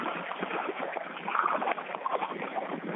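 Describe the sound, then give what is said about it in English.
A boat being paddled through water: continuous sloshing, splashing and gurgling strokes over a steady watery rush, fairly faint and with no voices. “And I've got to paddle back out just a little ways.”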